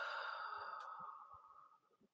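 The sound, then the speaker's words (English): A deep, drawn-out exhale during a guided breathing exercise: a steady, breathy rush that slowly fades over about two seconds, with no talk. “Nice big inhale. And exhale.”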